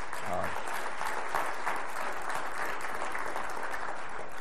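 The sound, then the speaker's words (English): Applause from an audience at a meeting, a steady, dense clapping that holds at an even loudness for the whole stretch without a clear break. “I think just a round of applause for Mary would be appropriate”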